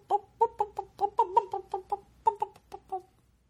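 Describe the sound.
A person's voice imitates a clucking hen in many short, throaty bursts at a quick, uneven rhythm, with a brief pause before a final few clucks.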